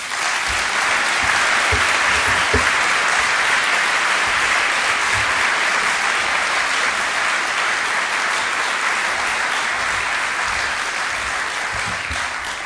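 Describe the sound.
An audience in San Diego applauding loudly to welcome the Archivist of the United States, a dense, unbroken wash of many hands clapping that holds steady for nearly thirteen seconds.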